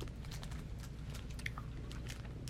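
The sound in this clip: Chewing of a chalky candy much like a Smartie, a steady run of many small, faint crunches and mouth sounds with no talk.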